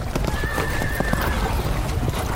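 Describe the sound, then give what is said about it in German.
A horse whinnies in a drawn-out call over a steady run of clip-clopping hooves, with many hoof beats continuing throughout. “Pferde sind Steppentiere.”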